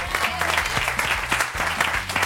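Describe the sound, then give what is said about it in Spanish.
An audience applauds with dense, steady clapping from many hands. The loudness stays even throughout, with no pause or voices. “Un aplauso grande, ¿no?”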